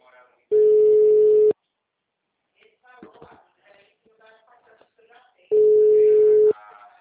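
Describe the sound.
Telephone ringback tone on an outgoing call waiting to be answered: two steady one-second beeps spaced about five seconds apart, with faint murmuring voices in the gap between them.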